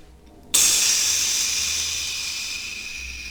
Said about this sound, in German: Dass eine Art Dampf entsteht. Das Ganze aus einem Riss, den ihr vorher nicht gesehen habt, in die Seiten fährt.